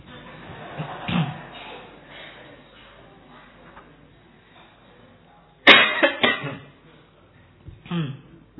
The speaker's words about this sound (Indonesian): Ayo lomba batuk.